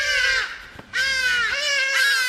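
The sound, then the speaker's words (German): Harsh, drawn-out honking calls of a hadeda ibis ring out loud and alone, a few raucous, nasal cries in quick succession with only a brief gap between them. “Hadidas rufen gerne und ausdauernd, vor allem dann, wenn sie morgens so ab 3 oder 3:30 ihre Nester verlassen und an den Schlafzimmerfenstern vorbei durch die Gärten fliegen.”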